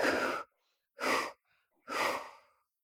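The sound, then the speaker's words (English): Three forceful breaths are exhaled through the mouth during a yoga breathing exercise. They are evenly spaced, breathy whooshes with quiet pauses between them and no talk. “Inhale up, exhale, three breaths through the mouth, bringing your arms down.”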